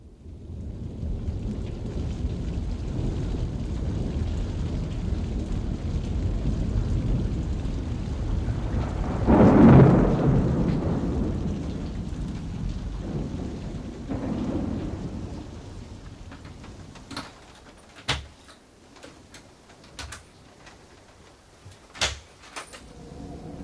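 A thunderstorm in a radio-drama scene around a lonely house: constant rain hiss with a heavy, low thunder roll swelling near the middle, then quieter rain punctuated by a few sharp clicks and knocks. No voices.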